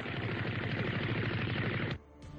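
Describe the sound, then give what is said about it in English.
Assault rifle gunfire sound effect: a loud, dense burst of rapid automatic shots runs steadily for about two seconds, then cuts off sharply, leaving a faint rattle. “you pull out your Assault Rifle to take a shot.”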